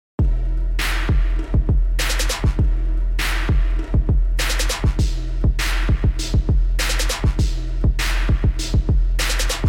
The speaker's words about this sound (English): I got this hip hop beat that originally sounds like this.